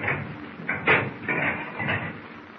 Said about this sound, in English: Are we on the surface yet? Yeah. Open the conning tower hatch. We will go on deck for a breath of fresh air.